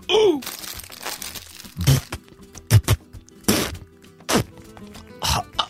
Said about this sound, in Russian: этот негодяй Гонсалес у нас на работе открыл бутылку пива зубами! Ха, Мария, это ерунда! Я тоже так умею, смотри!